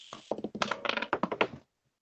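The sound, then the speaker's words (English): A die drops onto the floor during a tabletop role-playing game, making a quick, fairly faint run of many small sharp taps and knocks that bounce unevenly and then stop. “Where are you going with that dice, bro? Shit like NASCAR out here. It fell on the floor, so I have to roll it again,”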